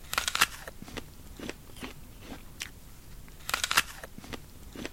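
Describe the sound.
A person bites into a crisp Gala apple, with a few sharp, juicy crunches in uneven bursts followed by crackly chewing, all fairly quiet and without talk.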